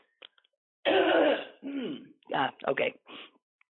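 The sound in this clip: Someone with allergy-season irritation clears their throat in one harsh, rasping burst, followed by a few shorter coughing and voiced bursts. All of it is fairly faint.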